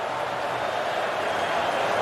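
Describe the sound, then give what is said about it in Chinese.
Football fans at a Canada match keep up a steady roar of cheering late in the game, urging their team forward as a continuous, even wash of crowd noise with no distinct peaks. “球迷呢在不断的欢呼示意球队往前。”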